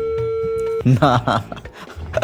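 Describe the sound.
A steady telephone busy tone sounds on a dropped phone-in call, holding one pitch for under a second before a voice starts talking over the line.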